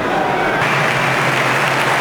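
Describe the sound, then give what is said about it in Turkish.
A stadium crowd applauds England striker Harry Kane during a football match, a broad, continuous wash of clapping that stays even and loud throughout without any break. “Harry Kane'i alkışlatıyor Thomas Tuchel.”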